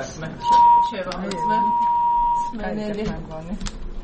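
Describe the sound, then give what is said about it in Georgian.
Incoming call ringing on a radio call-in show: two steady electronic tones, a short one followed by a longer one, with voices heard around them. “ზარი, გვაქვს კიდევ ერთი მსმენელი”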